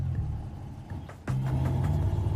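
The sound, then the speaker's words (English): A car engine rumbles low as the car reverses, then grows louder and steadier as it pulls away, a continuous mid-pitched hum with no voices. “The younger cop reverses, then pulls away.”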